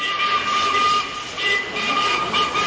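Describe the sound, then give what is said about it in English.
A twin-headed freight locomotive hauls out of Garston sidings in 1960s Liverpool. Its continuous rumbling roar carries a steady high-pitched whine on top, with slight surges in loudness and no pauses. “Yeah, the great sound of a twin-headed freight locomotive pulling out of Garston sidings. Tim, get that record off. Everyone is sick of listening to engine noises.”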